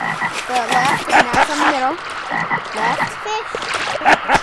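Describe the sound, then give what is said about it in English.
Frogs croak in a dense, overlapping chorus at a fishing spot, with many rough, pulsing calls of varied pitch that follow one another with no pause throughout. “And the frogs. Yeah, you hear the frogs?”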